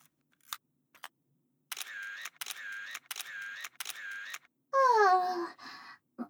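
Camera shutter clicks during photo practice while someone poses: two sharp single clicks, then four longer bursts of rapid, evenly spaced clicking, each burst loud and separated by short gaps.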